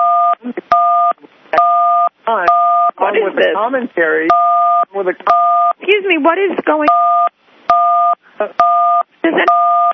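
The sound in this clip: Telephone keypad tones beep repeatedly during a call, each a short, steady dual-pitch tone. Many of them alternate with bursts of people talking over the line.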